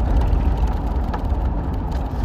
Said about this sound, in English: Driving past your kids' elementary school. It's a big school. Ooh, I'm going way too fast. Slow down.